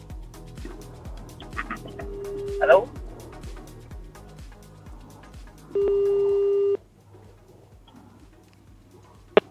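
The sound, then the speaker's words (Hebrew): A phone call to a listener rings on the line during a radio call-in: a single steady ringback tone lasts about a second, over a regular low rhythmic pulse, with scattered voice-like sounds around it. “הנה אנחנו מתקשרים אליה”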